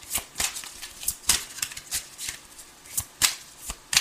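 Tarot cards shuffled and drawn during a reading: many quick, crisp flicks and soft slaps in an uneven rhythm, heard alone without talk.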